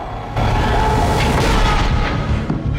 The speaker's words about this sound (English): James's gun goes off. The stranger is shot.